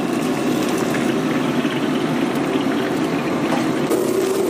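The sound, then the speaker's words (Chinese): Steady sizzling of carp frying in hot oil until golden, the first step of a northern home-style braised carp with tofu; a dense, continuous, fairly loud crackle that holds evenly throughout with no talking. “表面炸的金黄，捞出即可。”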